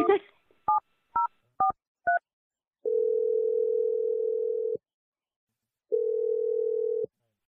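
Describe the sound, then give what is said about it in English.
A telephone number is dialed: four short, evenly spaced keypad touch-tones beep in quick succession, then two long, steady ringing tones follow with a pause between them. “We're just going to dial Jack and see what he has to say, okay?”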